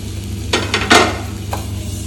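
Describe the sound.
Food sizzling and being stirred in a frying pan: a few short, scraping bursts of frying sound over a low, steady background hum.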